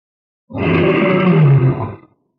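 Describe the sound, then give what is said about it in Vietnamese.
An old lion roars once, loud and rough. The single deep, sustained roar lasts about a second and a half; it swells, holds, then drops away into silence. “Lão sư tử rống to”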